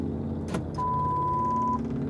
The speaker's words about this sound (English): And I am driving home.